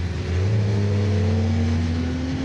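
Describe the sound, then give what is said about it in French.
A racing car engine accelerates behind a Formula One car on slick tyres on a wet, oily track. The drone is loud and steady, and its low tone climbs slightly in pitch throughout. “je suis derrière une F1 qui roule en slick”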